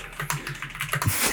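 Keyboard typing in a short, rapid burst of crisp clicks lasting just over a second.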